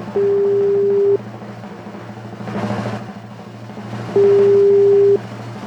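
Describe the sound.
Telephone ringback tone of an unanswered call: two steady, low, even beeps, each about a second long, separated by a silent gap of a few seconds, over a constant low hum.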